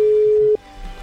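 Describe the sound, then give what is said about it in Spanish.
Ringing tone on an outgoing telephone call to a doctor during a live radio show: a single steady mid-pitched electronic tone lasting about half a second, then cutting off into low background hiss. “A ver, sonando el teléfono. Quizás esté ocupada.”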